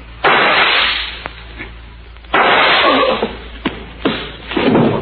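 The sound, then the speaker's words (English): Gunshots ring out in a crime radio drama. A few sharp, loud cracks, each with a ringing tail, are separated by quieter shuffling. “The whole building must have heard them shots.”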